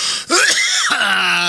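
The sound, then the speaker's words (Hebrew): A single harsh cough or throat-clearing from a man with a lingering cough, short and raspy with a groaning voiced tail, heard alone. “השיעול עדיין מלווה ככה את היום שלי, זה ייקח עוד איזה רגע, עדיין יש מצב, אני מתנצל מראש, שאתם מקבלים פה פתאום,”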